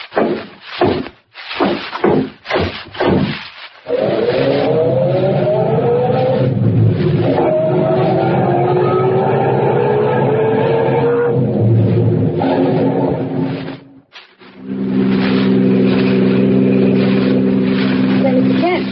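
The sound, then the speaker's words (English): Car engine droning steadily as the vehicle drives along a road toward a town at night, its pitch wavering slightly. A few sharp thumps come first, and the engine dips briefly near the end before resuming. “We'll drive on to the town and find a place to put up for the night.”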